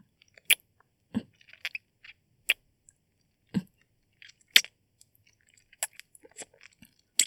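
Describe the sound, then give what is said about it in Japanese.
Soft biting and nibbling mouth sounds in an intimate setting: sparse, crisp clicks and small wet smacks at irregular intervals, faint against near silence, with no talking. “ごめん、ちょっと痛かったかな。あんまりにも美味しいから、かじっちゃった。”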